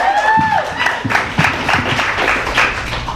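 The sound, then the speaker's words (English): Audience applause for a reader at a reading event: steady, dense clapping that fills the whole stretch, with a few brief tonal voice sounds near the start. “Come on up, Ruby. Second time reading to an audience. Give her another hand.”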